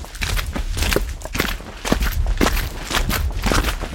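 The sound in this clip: Footsteps of people walking outdoors on a snowy mountain path, with many steady, loud crunching steps in an even rhythm throughout.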